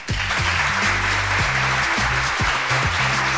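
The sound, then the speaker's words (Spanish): A canned applause sound effect played on a program: a steady burst of clapping that holds an even, loud level from start to finish, with no voices. “Ya les traje los aplausos, ahora sí.”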